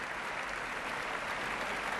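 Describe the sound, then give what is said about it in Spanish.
Applause for Spain's national orchestra, with the audience on its feet: dense, steady clapping that holds an even loudness without a break for the whole stretch. “Grandes aplausos, gran ovación para la Orquesta Nacional de España”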